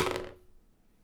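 A single six-sided die rolled during a tabletop role-playing game, a brief clattering rattle that lasts about a third of a second and then quickly fades to near silence.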